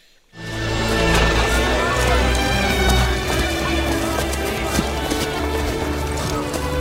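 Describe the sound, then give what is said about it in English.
A horse trots with clip-clopping hooves inside a dense, loud, continuous mix of sound that rises sharply at the start and stays steady to the end. “So into this situation trots William Wallace. Let's check it out.”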